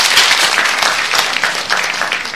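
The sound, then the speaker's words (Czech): Hands clap in a loud, dense run of quick, overlapping claps that continues without a break and eases slightly toward the end. “Tleskám.”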